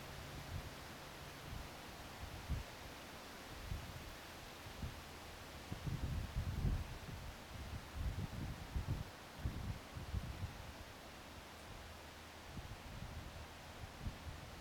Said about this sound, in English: I just want to let the wind talk for a minute there.